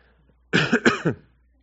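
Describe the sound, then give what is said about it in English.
A cough and throat clearing: a quick cluster of rough, harsh bursts lasting under a second, loud against an otherwise quiet background. “Excuse me. And something caught my throat there.”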